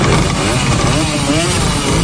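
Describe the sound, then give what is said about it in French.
Hundreds of old East German mopeds and motorcycles, Simson, Schwalbe and MZ, start up together, making a thick, continuous engine roar that stays loud and steady throughout. “Des centaines de vieilles mobilettes et motos est-allemandes, Simson, Schwalbe et autres MZ démarrent. À cette pollution d'un autre temps s'ajoute celle des Trabants, les fameuses voitures pétaradantes au moteur à deux temps.”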